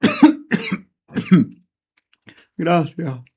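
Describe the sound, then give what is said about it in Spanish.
Coughing and throat clearing from a person who has choked slightly, heard between stretches of a man speaking. “Disculpen, es que me he atorado un poco”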